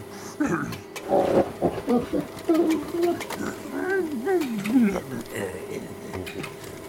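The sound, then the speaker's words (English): Werewolf snarling in an audio drama, voiced by a performer imitating the creature: rough, continuous growls and snarls with wavering pitch, loud throughout. “It bit me. That damn werewolf bit me.”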